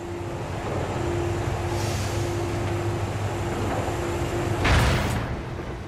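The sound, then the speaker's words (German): A lever-operated movable bridge travels across a room with a steady mechanical hum and low rumbling drone, then stops with a single heavy clunk and a short burst of noise. “Er betätigte einen Hebel, wodurch eine bewegliche Brücke von einer Seite des Raumes zur anderen gefahren wurde.”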